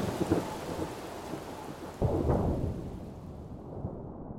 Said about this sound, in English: Strong southwesterly winds, thick rain squalls, and nasty, choppy seas.